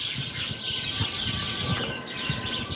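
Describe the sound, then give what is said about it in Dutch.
House sparrows chirping: a busy flock's bright, overlapping chirps and tweets repeat rapidly over a steady background chatter, fairly loud and with no voices. “En al jaren, ook dit jaar, staan deze heerlijke kwetteraars op één. De huismussen.”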